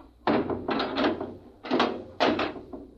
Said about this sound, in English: We'll oh, slam the hatch and off we go.